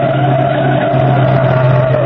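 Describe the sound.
Car tires skidding and squealing as a car is forced to the curb, a loud, sustained squeal over rumbling engine noise with no break.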